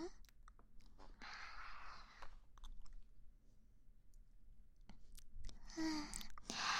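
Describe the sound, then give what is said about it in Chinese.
Chewing of spicy food: a few moist, crunchy bursts of mastication, fairly faint, with quiet gaps between them. “嗯，果然很好吃呢，而且还都是辣的。我超级喜欢吃。”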